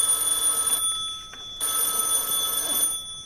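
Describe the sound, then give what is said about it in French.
An old black telephone rings with a thin, silvery, high-pitched bell tone in rapid, even bursts separated by short pauses, with no voices. “le petit récepteur du téléphone noir fit entendre sa sonnerie grêle et argentine”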